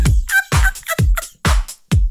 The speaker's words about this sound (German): Mit den Hühnern, piep, piep, schnatter, schnatter, schnatter.